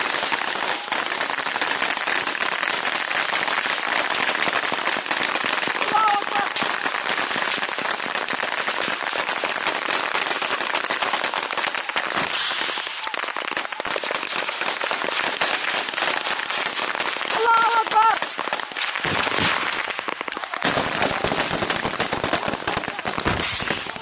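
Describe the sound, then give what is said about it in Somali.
Dense crackle of gunfire exchanged around the perimeter of a military camp during an attack, with many rapid, overlapping shots forming a continuous loud barrage that breaks off briefly near the end before resuming. “Rasaasto isqabsatay dhammaan bedelbiyada iyo hareeraha xerada isla markaana horay u maratay”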